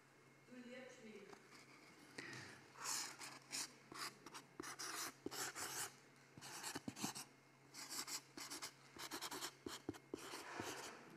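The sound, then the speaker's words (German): Handwriting on a sign or card: a pen scratches and rubs across the surface in many short, quiet strokes, grouped into irregular bursts separated by brief pauses. “Ich schreibe mal, liebst du mich? Ausrufezeichen und Fragezeichen.”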